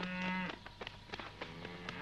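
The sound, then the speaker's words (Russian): A herd of cows, with one long, low moo at the start, followed by a run of scattered knocks and clatters as the animals move about. No voices are heard. “Вместе со стадом коров появляется Егор.”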